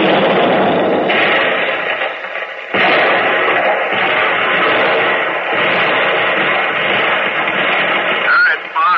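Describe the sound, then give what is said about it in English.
Heavy gunfire from a ship's gun turret shelling a German tank: a loud, dense, sustained roar of blasts with a few brief dips, muffled and harsh throughout. “Target, German tank, range, 5900, bearing, 325, fire.”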